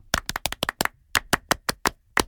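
A studio group giving a rhythmic French-style round of applause: about a dozen sharp, crisp hand claps in short, uneven bursts with brief silent gaps between, no talk.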